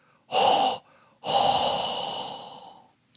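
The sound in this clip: Breathing blown close into a microphone: a short, loud breath, a brief pause, then a longer breath that slowly fades, with a breathy hiss throughout.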